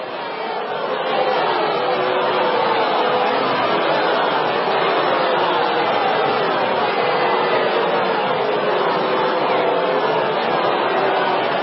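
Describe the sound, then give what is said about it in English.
An audience reaction sound effect of crowd chatter: many voices murmuring together in a steady, continuous hubbub that holds at an even level for nearly twelve seconds. “Do we have an audience reaction to that?”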